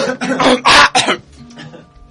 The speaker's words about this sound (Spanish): Incluso me permito algunas toses.